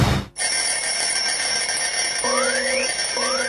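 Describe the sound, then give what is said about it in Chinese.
An alarm clock rings with an electronic, high-pitched tone that starts abruptly after a brief silence and holds steady, later joined by repeated rising sweeping tones. “关上了闹钟，我伸一个懒腰”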